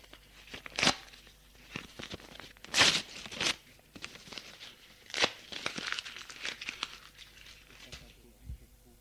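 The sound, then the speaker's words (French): Paper tearing: a sheet of paper taken from beside a typewriter is ripped, giving a few sharp, faint tearing bursts with softer crinkling between them. “Prends une feuille. et la déchire.”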